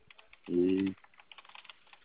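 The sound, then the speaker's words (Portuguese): Keys are tapped to enter a verification code, a quick series of light, faint taps following a brief voiced sound. “Agora você digita o código lá onde estava escrito para digitar.”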